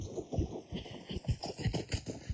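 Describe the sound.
Horse hooves clip-clop in a quick, steady rhythm as a beginner rider, escorted by coaches, makes a fast, bumpy ride through water on grassland. The many low, thudding beats are fairly faint and carry on without talk.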